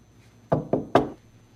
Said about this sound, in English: she finds a room numbered 308 and adjusts her hair, then knocks.